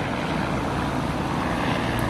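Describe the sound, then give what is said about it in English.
An old, loud Great Barrier Airlines propeller plane flies overhead, producing a dense, steady roar that holds at an even level throughout. “Great Barrier Airlines, as I mentioned before, is actually known for its archaic planes that they use. There's no one can remember it, but they're known for being like chainsaws in the sky in terms of their loudness.”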